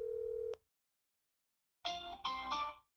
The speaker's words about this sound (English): I'm calling him. I haven't talked to him in years.